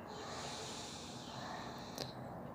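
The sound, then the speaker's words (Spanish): A deep inhale through the nose: a soft, steady, breathy hiss that lasts through the whole clip, faint and without talk. “Y lo haces una vez más. Inhala profundo por tu nariz.”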